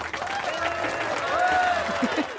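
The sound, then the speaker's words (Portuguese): Applause marks the end of a lesson on the five senses, a dense, continuous patter lasting about two seconds. A tonal, wavering sound runs over it. “Palmas para nós!”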